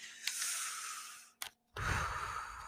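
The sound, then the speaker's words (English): A deep breath in and out taken during a pause before a reading: a long airy inhale, a brief click and a moment of silence, then a fuller, lower, sigh-like exhale heard alone. “take a deep breath so we can have a reading right now. So we're just going to breathe in”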